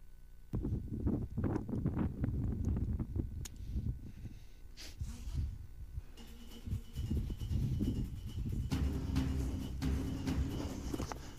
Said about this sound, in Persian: شدت باد خیلی داره زیاد میشه، دستان داره به شدت سرد میشه